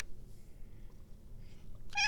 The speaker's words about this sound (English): Is that fun for a baby? Yes, you are such a kitty.